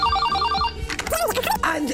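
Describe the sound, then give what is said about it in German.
A telephone rings with an incoming call to a woman in Australia: a short electronic trill of rapidly repeating tones, then a voice begins talking. “Eine Frau aus Australien bekommt den Anruf ihres Lebens und reagiert so.”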